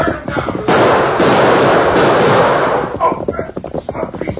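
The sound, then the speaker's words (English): Gunfire in an old radio drama shootout set in the Western frontier: a dense, loud burst of shots lasting about two seconds, then fading into softer, scattered noise. “Use your gun, Tonto.”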